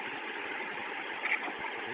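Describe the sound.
Steady idling rumble of a city transit bus engine on the Oregon City route, a continuous low mechanical hum without breaks or revving, heard alone.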